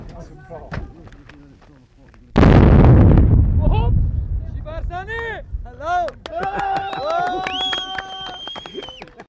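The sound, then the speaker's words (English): A bombing explosion in an Iraqi war zone erupts as one sudden, loud blast that rolls into a long, decaying rumble. People talk before and after the blast. “Let's get away from the area. They're going to bomb it.”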